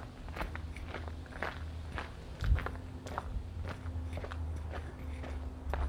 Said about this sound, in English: Walking down this little alleyway.